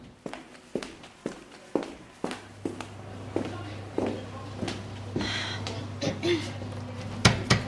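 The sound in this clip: Footsteps walk over toward the technicians in a steady series of many distinct, evenly spaced thuds over a low constant hum, a few landing louder than the rest near the end.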